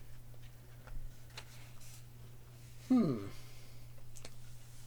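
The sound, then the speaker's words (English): A pen is uncapped and drawn across paper. A faint soft click comes first, then a short squeaky stroke that stands out from the quiet background, followed by light scratchy sound. “I'm going to grab my pen here and cross off the Velocipastor. Pop the cap. Draw a line through that.”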